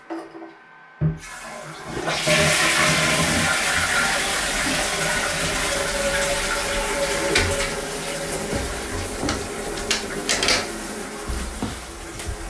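A toilet being flushed: water bursts in suddenly and keeps rushing and gurgling loudly and steadily for about ten seconds.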